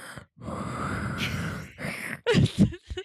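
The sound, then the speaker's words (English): A voice imitates Darth Vader's breathing: a long, rasping, hollow breath, followed after a short pause by a few shorter, harsher gasping breaths. “I would rather breathe like Darth Vader. So, I would rather breathe like that.”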